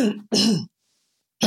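A throat is cleared in two harsh, rasping bursts separated by a short pause, with a third burst beginning at the very end; loud and alone, with no talk.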